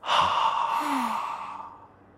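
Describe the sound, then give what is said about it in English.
A slow, sighing breath from a guided breathing exercise, in through the nose and out through the mouth. One long, airy exhale starts strong and gradually fades over about two seconds, with no talk. “So let's breathe slowly in through our noses. Then slowly breathe out through our mouths.”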